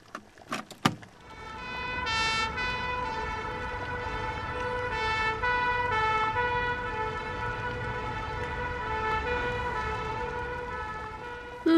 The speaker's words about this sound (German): Das war eine Feuerwehrsirene aus England. Die macht Tatü, Tatü.